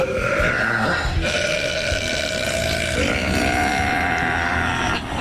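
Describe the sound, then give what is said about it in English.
A woman's loud, record-setting burp: one long, rough, continuous belch that holds steady for about five seconds and stops abruptly at the end. “I just broke the world record for women's loudest burp.”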